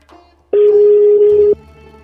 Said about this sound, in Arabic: خلونا نحاول نتصل بشيف حكيم بقبص من بريوشيه نشوف رأيه في الموضوع